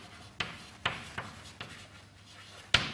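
Writing on a board: five short, scratchy strokes or taps, spaced irregularly and fairly quiet, with no talk.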